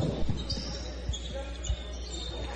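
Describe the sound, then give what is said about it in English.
Basketball dribbled on the court during a Wildcats game against a zone defense, a few dull thumping bounces at uneven spacing over a steady crowd murmur. “Going to take a right-handed dribble to the right baseline.”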